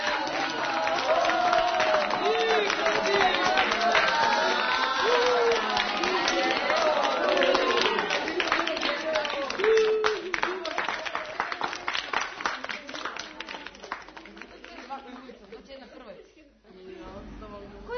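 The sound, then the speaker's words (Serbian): A crowd claps in a children's drama scene, a sustained, dense patter of applause with voices talking over it early on, thinning and fading toward the end. “Ma ne budi smešan, čuti i pljeskaj. Vidiš da svi pljeskaju.”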